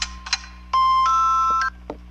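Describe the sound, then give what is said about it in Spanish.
Mobile phone ringtone: a bright electronic tone holds steady, then steps up in pitch, with short chirpy bleeps just before and after it. “Güey, está sonando tu teléfono. A verga, pero yo no tengo ese tono, güey.”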